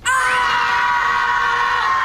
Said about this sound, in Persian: ازتون میخوام با تمام قدرت فریاد بزنین بلند و رسا.